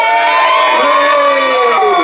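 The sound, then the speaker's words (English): Audience cheering at a live performance: a loud, sustained wash of many voices shouting and whooping together, holding steady for the whole stretch. “Well, continue to cheer if you are not English and understand what we are saying.”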